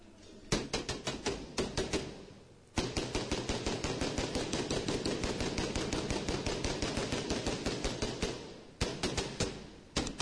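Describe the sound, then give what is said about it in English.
Gunfire rattles from a played video of a shooting at a mosque: rapid bursts of sharp shots, a short volley, then a long unbroken stream of many rounds, and a final quick burst after a brief pause. “See the gun? Mm-hmm. He's got a bunch of shit written all over. Watch. It's crazy. Just starts shooting.”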